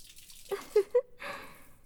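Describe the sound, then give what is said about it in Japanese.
Water drips and runs while a man's hair is washed. Three distinct, faint plinking drops are followed by a brief soft wash of flowing water. “殿方の頭を洗うなんて、生まれて初めてですわ。”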